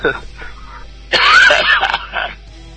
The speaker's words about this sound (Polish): Excuse moi za ten kaszel.